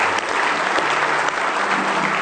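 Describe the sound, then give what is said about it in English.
An audience at a church service applauds as a hand clap of praise to the Lord, loud, thick, unbroken clapping from many people that stays level throughout. “Give the Lord a hand clap of praises.”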